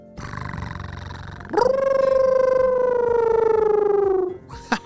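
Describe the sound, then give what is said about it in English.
A voice imitates an imaginary wolf-cat creature, starting with a low rolling purr-like rumble, then breaking into a loud, sustained howl that slowly sinks in pitch before cutting off. “It purrs like a cat, and then howls like a wolf. And then you combine the two to make a wolf cat sound.”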